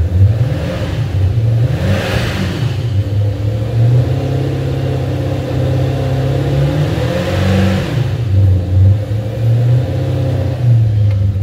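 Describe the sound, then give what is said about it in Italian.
A car engine revs hard at high rpm, close to a redline that starts at 7000 rpm. It makes a loud, continuous mid-pitched roar that swells twice, with no voices. “come tocchi l'acceleratore prendi i giri in maniera esagerata eh, il rosso inizia a 7000 giri”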